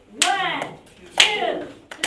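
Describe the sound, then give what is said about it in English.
A group clapping hands behind their backs in a team game; a few sharp claps spaced apart, with voices speaking alongside them. “Clap your hands behind your back 4 times.”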